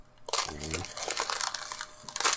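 Plastic wrap crinkles as a pet plays with it, making a busy run of crackling rustles, with a short vocal sound early on.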